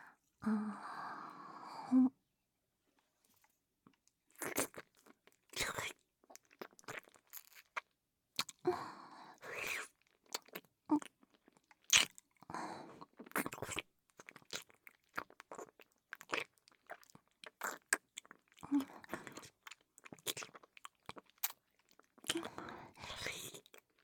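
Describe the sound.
Crisp biting and chewing of food, with many small crunches at an irregular pace across the whole stretch. The crunches are quiet and close, with soft mouth sounds between them and no talk.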